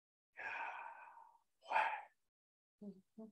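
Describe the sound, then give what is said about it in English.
A person breathing: two long, soft breaths, the first lasting about a second, followed after a pause by two short, sharp puffs. “Listen to yourself breathe sometime.”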